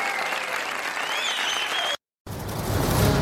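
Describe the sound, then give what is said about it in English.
Applause from an audience: steady, dense clapping that breaks off into a brief moment of total silence, then resumes slightly louder and continues to the end. “One day we'll have applause. It'll pop up eventually. But there it is.”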